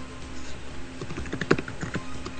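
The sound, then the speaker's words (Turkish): Typing on a computer keyboard: many quick, light clicks in an uneven rhythm, with a small cluster of sharper keystrokes near the middle, heard alone without talk. “Birisi takır takır bir şey yazıyor bu arada. Evet, ben yazıyorum.”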